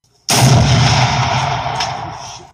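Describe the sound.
Single-fire gunshot sound effect: one loud blast with a sharp attack, followed by a roaring boom that slowly fades over about two seconds before stopping.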